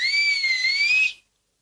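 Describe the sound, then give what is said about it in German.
A person's two-tone whistle calls two children out of the house. It is one sustained whistle of about a second, high and steady with a slight waver in pitch, heard alone. “Und Flip pfiff die beiden Taggart-Kinder Gina und Rolf heraus.”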